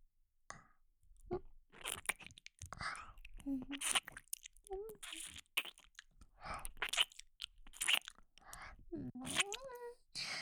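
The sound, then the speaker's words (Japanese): ASMR ear-licking mouth sounds: wet smacks, clicks and slurps come in irregular bursts, mixed with soft breathy whispering and a few low hummed vocal tones. “お耳舐めて、僕くんのことも元気にしてあげるからね。 それじゃあ、お耳、いただきます。”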